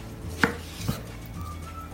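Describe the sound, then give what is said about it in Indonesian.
Knife cutting into a papaya as it is halved and peeled, two short sharp cuts with a dull thud, then near quiet. “Kita kupas dulu, kita potong langsung setengah dan kita kupas.”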